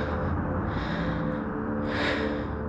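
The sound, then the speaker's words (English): Slow breathing in and out, heard as two soft airy swells of breath over a dense, steady droning music bed. “Inhale. And exhale.”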